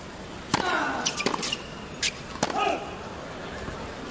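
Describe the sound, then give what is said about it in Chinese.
Sharp cracks of a tennis serve by Rafael Nadal in the third set of a match, with a ball bounce and racket hit. A few crisp impacts stand out over a steady background hiss, with no talk. “双方第三盘的比赛是由纳达尔率先发球”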